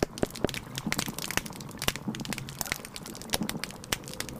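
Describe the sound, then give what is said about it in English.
Underwater on a living reef, a dense bed of sharp snapping shrimp snaps crackles continuously. Brief, louder clicks stand out here and there over a soft, low background rumble of water. “So in that one, you can hear some grunts and sort of knocking sounds. Those are certain types of fish. And then you can also hear a lot of snaps from the snapping shrimp, especially.”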